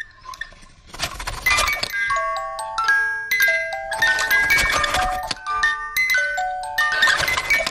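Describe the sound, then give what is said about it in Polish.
A music-box toilet-paper holder, set off by pulling the paper, plinks a bright, tinkling melody. Quick high notes run in repeating phrases over faint rustling and clatter. “Uchwyt do papieru toaletowego będący jednocześnie pozytywką. Tak. Pociągnięcie za papier toaletowy powoduje uruchomienie mechanizmu i dzięki temu możemy w przyjemnej atmosferze dokończyć dzieło.”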